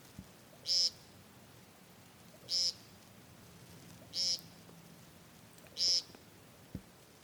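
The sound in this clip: Male woodcock calls at dusk in mating season: four loud, short, buzzy nasal calls, evenly spaced with about a second and a half of quiet between each, over a faint, quiet background.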